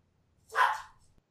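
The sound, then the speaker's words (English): A single dog bark rings out, short and fairly loud, against near silence. “Your dog agrees. God damn this dog, man.”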